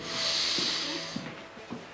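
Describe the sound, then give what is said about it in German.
A patient takes a deep inhalation during a medical examination: a long, airy, steady hiss, then a few soft rustling touches. “Einatmen.”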